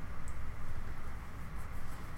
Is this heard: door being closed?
no

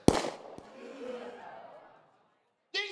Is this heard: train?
no

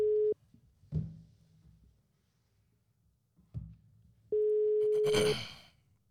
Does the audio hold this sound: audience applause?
no

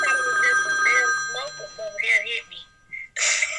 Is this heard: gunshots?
no

